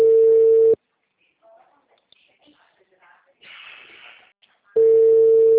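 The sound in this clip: Telephone line tones from a call placed and waiting to be answered: a loud, steady, mid-pitched tone at the start cuts off, a quiet gap holds faint scattered noises, then the same flat tone returns at the end.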